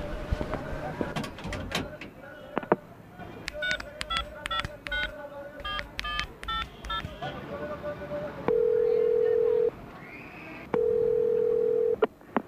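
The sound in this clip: A borrowed telephone is dialed: a rapid series of push-button keypad beeps, then two long, steady ringback tones separated by a pause.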